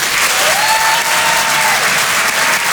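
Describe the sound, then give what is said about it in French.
Loud applause and cheering from a comedy audience at the Apollo Théâtre in Paris as a stand-up comedian is called to the stage; dense, steady clapping throughout, with a brief whistle near the start. “Et je vous demande de l'encourager de faire un maximum de bruit, s'il vous plaît, pour Elias Zoglami.”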